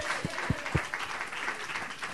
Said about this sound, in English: Would you give James Dixon a round of applause?